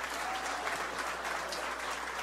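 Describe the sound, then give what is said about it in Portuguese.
Applause from an audience at a political gathering in Ceará, Brazil, clapping for the women present: a steady, fairly quiet patter of many hands with no talk over it. “pedir uma salva de palmas a todas as mulheres aqui presentes”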